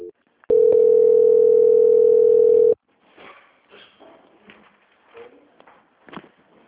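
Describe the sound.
A steady, single-pitched telephone line tone plays during a call transfer. It holds loudly for about two seconds, then cuts off, and quieter, intermittent voice-like sounds follow.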